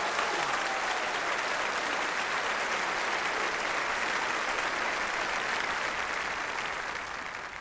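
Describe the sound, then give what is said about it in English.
Audience applause welcoming speaker Tony Campolo after music at a gathering: a long, dense, even wash of clapping from many hands that stays steady before easing off slightly at the end. “Before you sit down, would you clap and please welcome with me Tony Campolo.”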